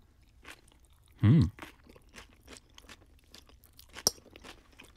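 A single loud, crunchy bite into a rice noodle salad with grated vegetables stands out early, followed by faint chewing noises and one sharp click near the end.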